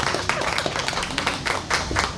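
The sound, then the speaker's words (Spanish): Spontaneous applause: many hands clapping in a dense, steady patter that holds at an even loudness throughout. “Un aplauso para un aplauso espontáneo, qué maravilla.”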